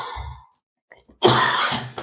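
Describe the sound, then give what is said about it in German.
A person coughs: a brief throaty hack, a pause, then a louder, harsh burst of coughing trailing into a breath, heard alone without speech. “Weil ich muss nochmal husten.”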